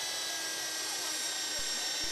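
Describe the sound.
A drill bores through a DVD with a steady, high, even whine that runs throughout, with two faint low thumps near the end.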